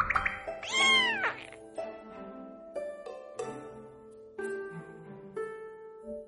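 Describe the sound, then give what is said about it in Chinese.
A cat meowing: several meows, the loudest a long, drawn-out cry near the start, followed by shorter, softer mews spaced over a few seconds, with no voices. “想到这里，展昭伸手捧住眼前小猫的脸揉啊揉。”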